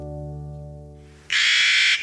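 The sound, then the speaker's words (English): A Clark's Nutcracker gives a single harsh, grating squawk about half a second long, loud and raspy. It comes right after a fading, steady tonal sound. “Meet Clark's Nutcracker, master of hide and seek, on today's Nature Watch.”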